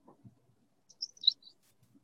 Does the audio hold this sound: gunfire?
no